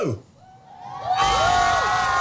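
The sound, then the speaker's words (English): Year 4 schoolchildren cheering outside at a harbour: a short call fades into a near-quiet lull, then a loud burst of crowd cheering rises, with high-pitched whoops and shouts arcing over the noise. “Okay, so we should have a microphone out there. So all the kids are out there.”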